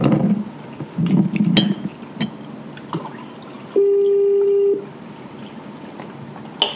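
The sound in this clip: A telephone call is placed: scattered taps and clicks, then one steady electronic tone lasting about a second, followed by near quiet with a final click.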